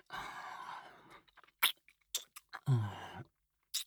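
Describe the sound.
ASMR biting and mouth sounds: soft, close, wet smacking that turns into a few sharp little bites and clicks, separated by brief quiet gaps, with a louder, fuller bite near the end.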